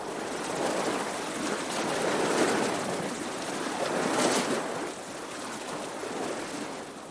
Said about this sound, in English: This is what I hope to remember. It's the sea.